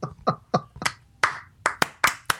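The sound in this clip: Applause from a small group, about ten sharp separate hand claps in a loose, uneven rhythm, growing brighter and denser toward the end, with no talk.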